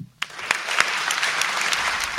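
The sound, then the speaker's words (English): Applause from an audience at a public event, a dense, steady clatter of many hands clapping that starts abruptly and holds at an even, fairly loud level throughout. “And there was even bigger applause for Maria Rodriguez”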